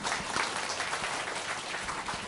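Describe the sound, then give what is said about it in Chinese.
Applause from a Christian gathering in Hong Kong as a speaker is welcomed, a faint, even spatter of clapping hands. “俾佢掌声佢好唔好？”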